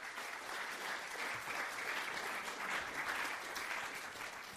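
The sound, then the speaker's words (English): An audience applauds to welcome a speaker at an event. The clapping is dense and steady, holds at an even level throughout and has no voices over it. “Please give a warm welcome to Derek Burnside.”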